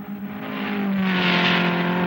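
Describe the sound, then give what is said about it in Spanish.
A red car on an empty road: a steady engine drone with a low, even hum that grows gradually louder over two seconds, heard alone without talk. “En un camino vacío avanza el carro rojo y se pierde a lo lejos.”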